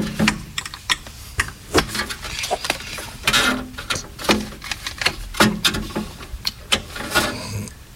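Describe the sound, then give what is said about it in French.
Crackling of a vinyl record on a record player: irregular dry clicks and soft pops scattered throughout, some sharper than others, at a fairly quiet level with no voices. “Alors ça crache un peu, mais c'est ça qui fait le charme euh, dans le vinyle.”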